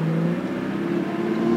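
A car driving past, heard as a steady engine drone with a faint humming tone, fairly loud and even throughout, with no clear rise or fall and no speech.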